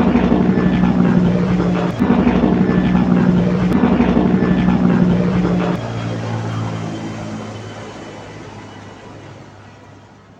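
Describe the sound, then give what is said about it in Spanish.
Airplane in flight with a steady, loud engine drone. Around six seconds the drone drops to a lower, quieter tone and then slowly fades away. “preparemos maletas, montémonos al avión y vamos para Colombia.”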